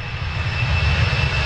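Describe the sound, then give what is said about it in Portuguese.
An airplane's engine drone, a loud, steady, continuous roar with deep low rumble throughout and no talk. “Último dia pra você marcar direitinho os aviões que estão passando, hein?”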